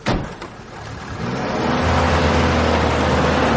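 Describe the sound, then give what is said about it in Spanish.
Guardia Civil police cars pull away among fog near a forest, their engines swelling into a low, steady rumble after a brief opening noise. “Los coches de la Guardia Civil abandonan el lugar.”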